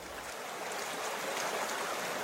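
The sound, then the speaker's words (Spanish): A river flows over small waterfalls, making a steady, unbroken rush of splashing water. The broad hiss stays even in loudness throughout, with no distinct events or voices. “Habían llegado a una parte del río donde se formaban pequeñas cascadas”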